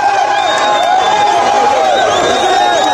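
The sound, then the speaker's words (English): Supporters cheer and chatter in Goma, eastern DRC, welcoming presidential candidate Moise Katumbi at a campaign stop, a loud, dense, unbroken crowd roar that holds steady throughout. “Supporters are welcoming presidential candidate Moise Katumbi in eastern DRC's capital Goma this week”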